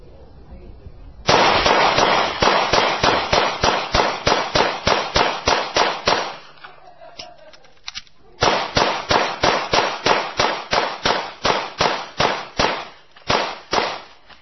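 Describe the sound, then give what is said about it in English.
Rapid gunfire from a real gun: two long bursts of many sharp, loud shots in quick, even succession, split by a brief lull. “Because this is a real gun, and these are real gun shots.”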